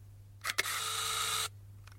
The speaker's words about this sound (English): Okay, here's shutter number two. Here we go. There we go. Let's see what happens.